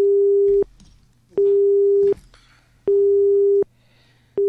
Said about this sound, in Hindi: ये किसी कारण कॉल कट गई है जी।